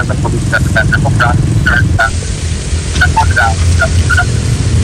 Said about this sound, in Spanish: están pasando camiones de transporte para poder